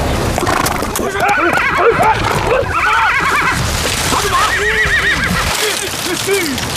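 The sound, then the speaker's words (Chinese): A horse identified as a Chinese Zhangbei horse neighs loudly in several wavering whinnies, with hoof clops sounding underneath throughout. “根据现场的情况分析来看，很有可能是中国的张北马。 中国还真有骑兵。”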